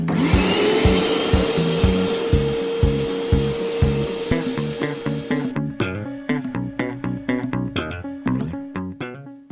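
A vacuum cleaner roars in a short jingle, its steady motor noise and whine running for about five seconds over a rhythmic beat, then giving way to punchy music alone.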